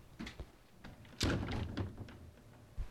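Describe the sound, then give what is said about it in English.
Wooden knocks and a heavy thud as the drawers of a chest are pulled open, bottom and middle first, in an anti-tip test. A few light knocks lead to one loud, rumbling thud, then a final sharp knock. “I'll open the bottom drawer, the middle drawers, and here we're just about to reach the tipping point.”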